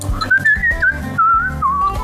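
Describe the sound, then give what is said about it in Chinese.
A man of about sixty whistles a cheerful tune while working at a seafood counter with a tap in Spain. The clear, bright whistled melody moves through several held and gliding notes and ends lower, over a low background hum. “然后他就吹着口哨。”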